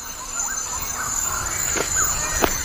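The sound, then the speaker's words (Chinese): A male bird-of-paradise performs a courtship display for a female in a tropical rainforest, giving a few soft whistled calls and two brief sharp bursts over a steady high hiss. “这只极乐鸟正在努力为心仪对象献上一场精彩的表演，雌性的任务则是选择表现最好的雄性。”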